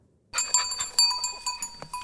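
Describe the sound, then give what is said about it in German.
Goats in a herd kept for fire prevention in the forests of Provence, southern France, bleating in repeated bursts over steady ringing bell tones, starting after a brief silence. “Das ist keine normale Ziegenherde. Es ist quasi eine Einsatztruppe der Feuerwehr.”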